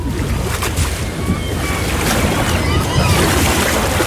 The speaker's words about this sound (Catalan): Havíem d'anar en barca, m'he marejat.